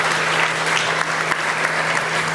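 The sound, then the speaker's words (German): An audience claps in dense, continuous applause for the operators, loud and sustained without pause for the whole stretch. “Also von daher vielleicht einmal klatschen für die Betreiber, dass sie das Thema Sicherheit ernst nehmen.”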